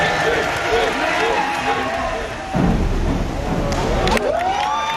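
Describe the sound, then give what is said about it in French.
Spectators roar, cheer and shout at an outdoor diving competition. The crowd is small but loud, making a dense, continuous wall of noise with raised voices breaking through. “Et du plaisir, il en a donné aussi aux peu nombreux mais bruyants spectateurs.”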